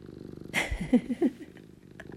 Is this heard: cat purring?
yes